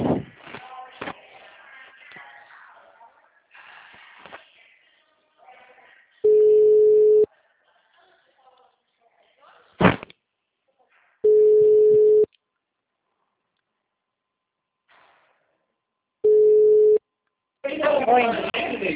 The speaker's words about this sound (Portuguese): a ligação caiu, não foi? Não, foi eu que desliguei, mano, que eu pedi pra que foi. Ai, foi. Eu pensei que a ligação tinha caído.